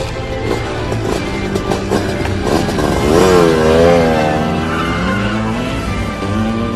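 A motorcycle engine revs in a loud, steady roar, its pitch swelling and wavering in the middle before settling back to a drone, with no talking.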